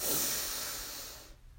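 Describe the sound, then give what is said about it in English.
A long, deep breath is drawn in from the bottom of the belly during a guided breathing exercise. It is a soft, airy, steady hiss that fades away after a little more than a second. “We'll take 3 deep breaths from the bottom of our belly.”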